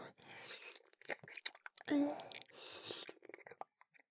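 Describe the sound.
Soft, wet mouth sounds of someone licking and tasting a person's face, with intermittent smacks and slurps that come in short bursts around faint whispered breath.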